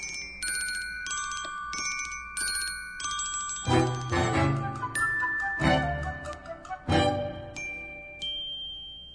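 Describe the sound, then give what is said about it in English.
A medley of telephone bell rings plays from a 1976 vinyl record marking the Bell System's 100th anniversary. Bright electronic trills and chiming ding tones come first, followed by louder, clattering bell rings. No voices are heard. “that comes to us from vinyl, the phone medley from the 100th anniversary of the Bell System back in 1976.”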